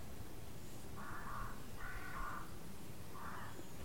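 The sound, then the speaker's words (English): Crows squawking: a few hoarse, drawn-out caws, faint over a steady background hiss, with no voices. “as you hear the squawk of the crows”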